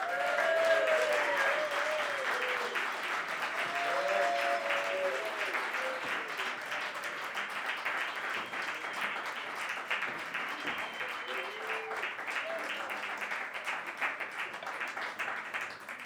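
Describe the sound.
Audience applause welcoming three performers to the stage: dense, sustained clapping that stays loud for the whole stretch and eases only slightly, with some crowd voices mixed in early on.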